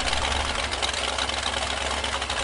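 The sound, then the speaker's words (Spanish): An amphibious car engine running at idle makes a steady, even drone with a fine, rapid, rattling texture. It holds constant throughout with no voices. “Se trata de un automóvil anfibio para sumergirme en el océano de las historias.”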